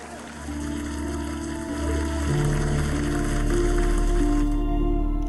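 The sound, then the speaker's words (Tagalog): Applause sound effect, a dense crackling patter of clapping that runs steadily through the whole stretch over sustained low tones, moderately loud with no pauses. “Kaway-kaway naman dyan at palakpakan sa inyo.”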